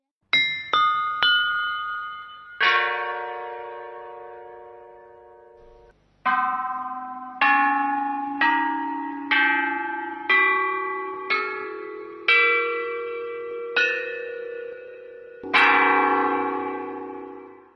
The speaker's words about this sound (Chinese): 这个带有金属质感的声音呢，其实是来自战国时期的乐器，叫做曾侯乙编钟。